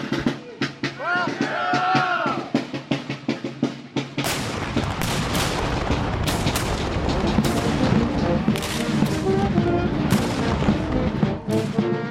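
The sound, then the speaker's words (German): Gunfire at a Civil War battle reenactment. Scattered sharp shots and shouting voices come first, then a dense, continuous crackle of many overlapping shots with occasional louder bangs. “Jedes Jahr marschieren, trommeln und schießen sie, stellen Schlachten nach.”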